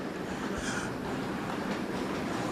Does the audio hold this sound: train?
yes